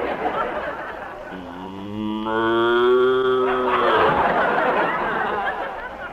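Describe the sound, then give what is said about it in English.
A cow that is being ridden gives one long, drawn-out moo with a rich harmonic tone, framed by rustling noise and voices before and after. “Suddenly, I saw him. He came riding towards me. Whoa! Whoa! Easy now, easy, old paint.”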